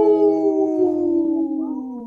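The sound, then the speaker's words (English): A person howls like a wolf, one sustained tonal howl lasting about two seconds whose pitch drifts slightly downward as it fades. “got a howl in too off camera here”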